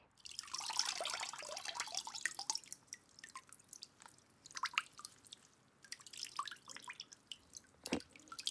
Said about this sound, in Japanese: まずは、あらかじめ用意しておりましたお湯から出したおしぼり。